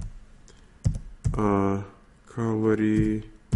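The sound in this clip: Keystrokes on a computer keyboard as a website address is typed, a handful of sharp, scattered clicks set among a voice speaking.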